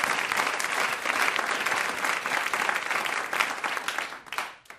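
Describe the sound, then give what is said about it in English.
An audience applauds a comedian with loud, steady clapping that holds for several seconds and then fades quickly at the end. “Let's hear it for James Adomian.”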